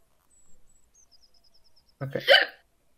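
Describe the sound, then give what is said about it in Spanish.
A single hiccup, a short, sharp vocal burst that comes abruptly after near silence, with only a faint, thin high whistle before it. “no sé si es el hipo. ¿Es posible que te dé hipo de la risa?”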